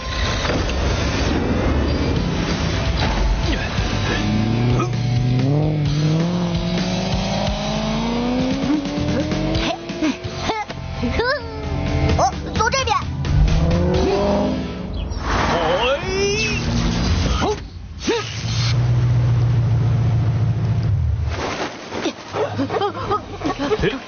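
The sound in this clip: An assault vehicle drives off on slippery ground, its engine revving hard with squealing, skidding tires. The roaring surges and shifts in pitch over a long stretch, with voices at times.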